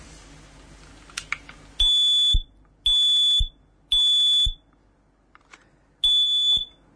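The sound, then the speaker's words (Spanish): A household smoke detector is tested and sounds its 90-decibel alarm: four loud, shrill, high-pitched beeps, each about half a second long, separated by short pauses, with a longer gap before the last, after a few faint clicks. “¿Quién detecta el humo? Esto. Y si me permites que haga una prueba para que veas cómo suena esto. Si detecta un incendio por la noche cuando estamos dormidos, suena de esta forma.”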